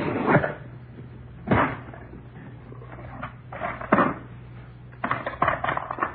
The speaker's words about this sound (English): How about this? It's a cigar box. It's taped shut. What's inside, Doctor? Nothing you'd be interested in. I'll open it, Joe.